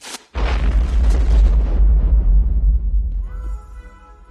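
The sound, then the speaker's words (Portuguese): A bomb explosion bursts out suddenly and loudly, then rolls into a long, deep rumbling roar that slowly fades away. “Aquilo era uma bomba?”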